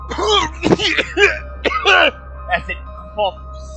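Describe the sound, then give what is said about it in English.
A human voice imitates a stuffed toy monkey in a tabletop fantasy role-playing game coughing white stuffing out of its body. It makes a string of rough, hacking coughs and throat-clearing bursts in an uneven rhythm that grow sparser and fainter toward the end. “as it coughs white stuffing out of its body onto the floor”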